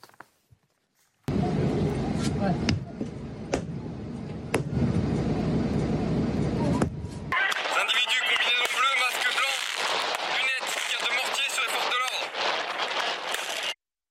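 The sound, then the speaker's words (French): Firework mortar shots fired at a protest: a few sharp bangs cut through a dense roar of noise, followed by a busy stretch of crowd noise and people talking and shouting. “vous voyez ces tirs de mortier d'artifice, c'est extrêmement dangereux. On voit un, gendarme se prendre justement ce mortier d'artifice euh, sur, sur le corps”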